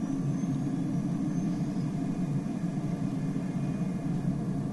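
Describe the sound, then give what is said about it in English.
Steady jet engine roar from a Boeing 757-200 using reverse thrust just after touchdown in a flight simulator game, a loud continuous rumble that holds level throughout with no talk over it. “And we're on the ground. Reverse thrust. Maximum braking.”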